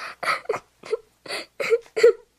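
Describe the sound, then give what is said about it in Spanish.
A frightened five-year-old girl crying: a series of short, breathy whimpering sobs broken by brief silences, with a tremulous, wavering pitch. “Al pensar que había hecho algo incorrecto, comenzó a llorar asustada ante la sorpresa del padre.”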